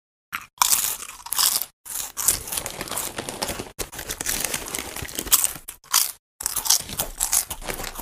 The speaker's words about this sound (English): This podcast is brought to you by The Sound of Us Eating Chips.